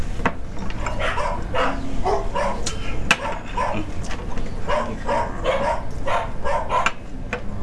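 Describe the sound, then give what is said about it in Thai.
A neighbour's dog yelps and whimpers while being hit, giving many short, high, sharp cries in an irregular series over a steady background hum. “เสียงเหมือนหมามันร้องไหมอะค่ะ อ๋อหมาคนข้างบ้านอะ ผู้หญิงข้างบ้านเขาตีหมาตัวเองอะค่ะ”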